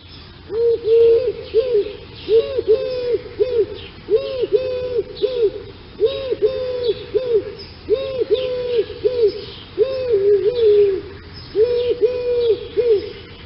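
An owl hoots in about seven evenly spaced bouts, each a quick run of several soft, mid-pitched notes, over a low steady background hiss.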